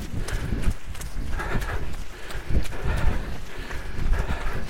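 Running footsteps thud across a muddy, wet beach at low tide during a race, a steady rhythmic patter of many footfalls at an even pace.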